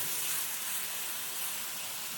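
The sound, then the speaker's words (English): Onions fry in a pan while being stirred constantly, browning against the bottom. The result is a steady, faint, even sizzle with no pauses and no talk. “So what I love about this is the onion starts to get a little brown from the bottom of the pan, getting some of those, a nice color off of the Looks great. And I'm kind of constantly stirring so that they move around.”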